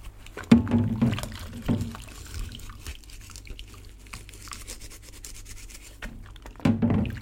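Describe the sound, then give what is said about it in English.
A washing-up sponge squeaks and rubs inside a wet plastic mug in a sink, with a few squelchy bursts at the start, a quieter stretch of faint rubbing, and another burst at the end. “The washing up sponge lolls around the wet palate of the plastic mug, evoking pre-verbal sounds, like a paranormal voice breaking through.”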